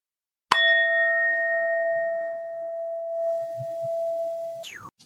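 A meditation bell is struck once at the close of a group mindfulness sitting, giving a bright attack and a pure, steady ringing tone that sustains for about four seconds before stopping abruptly.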